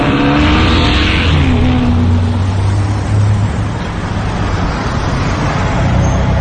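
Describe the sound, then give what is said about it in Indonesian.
A minibus suddenly guns its engine while heading onto a bridge over railway tracks, a loud, continuous engine roar with low droning tones that holds steady throughout. “angkot yang kunaiki ini tiba-tiba saja menancap gas.”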